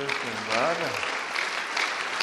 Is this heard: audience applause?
yes